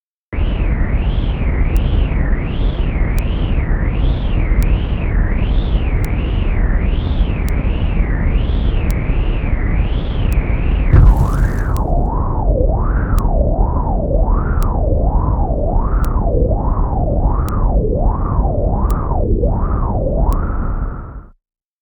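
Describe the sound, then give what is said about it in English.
Sonified bottom pressure data from the 2015 Axial Seamount underwater eruption, spanning two weeks: a steady warbling tone with evenly spaced clicks, which drops to a noticeably lower warble partway through after a brief noisy burst. “Here is the data sonification of the 2015 axial seamount eruption using 2 weeks of bottom pressure data.”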